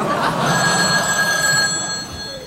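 A telephone bell rings continuously for the whole stretch, a steady, bright, loud metallic trill with a sustained ringing tone over it.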